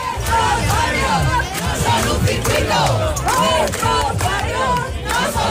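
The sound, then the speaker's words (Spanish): A protest crowd outside Madrid's Mad Ring Formula 1 circuit, rallying against public spending and construction disturbances to the neighbourhood; many voices shout and chant together in a loud, continuous roar of overlapping cries. “La plataforma Stop Fórmula 1 ha convocado una protesta contra el gasto público, dicen, y las molestias surgidas durante las obras de construcción del Mad Ring al vecindario.”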